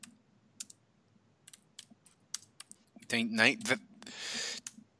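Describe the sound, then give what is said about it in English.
Typing on a computer keyboard: a few sparse, sharp key clicks over a faint low hum, then a brief vocal sound and a short burst of noise. “I just typed in.”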